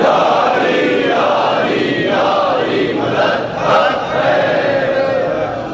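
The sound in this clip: A large crowd roars back in unison to the Naara-e-Haidari religious slogan call at a Shia gathering, a loud, sustained chorus of many voices with a swell near the end.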